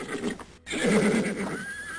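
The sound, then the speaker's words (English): A horse nickers near a forest pond, a loud, breathy whinny that starts after a brief gap and trails off in a wavering, fading tail. “A horse nickered and headed for the pond.”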